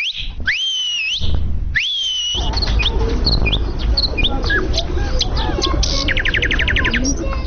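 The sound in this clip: A person whistles at the Kabul zoo, with two sliding, rising-and-falling whistled notes at the start, then a dense, busy wash of chirping birds fills the rest.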